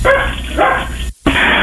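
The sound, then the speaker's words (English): Dog barking, a few sharp barks spread across the moment, loud and mixed with background noise; no clear speech over them. “Who is that? My dog.”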